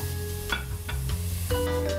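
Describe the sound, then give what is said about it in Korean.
Mushrooms marinated in soy sauce and sesame oil sizzle as they are stir-fried in a pan. A steady hiss runs throughout, broken by several sharp scraping strokes of the stirring. “자, 그렇게 볶아주시면 네.”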